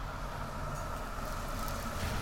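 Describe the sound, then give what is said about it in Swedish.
A tram approaching slowly near a pedestrian crossing, a steady low rumble with a faint rolling rattle that holds an even level throughout. “Nu kommer spårvagnen här.”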